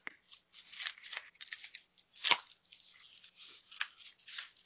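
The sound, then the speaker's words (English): A knife slices into a cardboard box in many scratchy, rasping strokes, with one louder cut near the middle and no talk. “Just cutting into that box. I love if we can actually hear it.”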